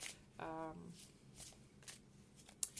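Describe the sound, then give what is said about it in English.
Playing or reading cards being shuffled and drawn during a love reading: several soft swishes and riffles, a brief vocal sound early on, then a sharp snap of a card near the end. “since this is a love scope, I'm gonna draw some more cards”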